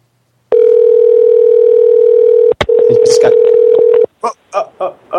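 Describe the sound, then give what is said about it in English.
A telephone tone on a call: a steady, mid-pitched electronic tone held for about three and a half seconds with one brief break, followed by a voice speaking. “It's a lot of rings here.”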